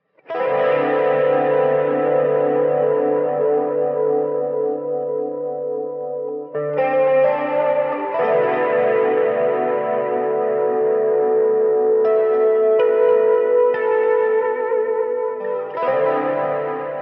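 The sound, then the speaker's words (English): A soloed shimmery electric guitar part drenched in echo, chorus and distortion effects plays sustained, ringing chords that change several times, heard alone. “So here's the guitar part and sound that I came up with to hopefully fill that need. And this is going to be soloed up just so you can kind of hear it, you know, by itself, soloed”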